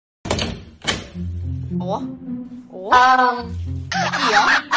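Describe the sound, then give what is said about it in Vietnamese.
Two dull knocks on a door at the start, then voices talking and exclaiming. “Mày làm cái gì mà mày gõ hoài vậy?”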